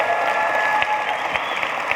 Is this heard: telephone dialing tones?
no